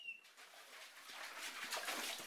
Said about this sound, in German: So, jetzt kommen wir an die Staumauer. Wir hören das Plätschern schon. Das wird jetzt immer lauter.